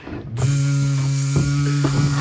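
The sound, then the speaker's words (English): A voice imitates an electric razor starting up to shave a head: a steady, low buzzing drone switches on and holds at an even pitch. “All you hear is the razor start. Anthony starts shaving his head.”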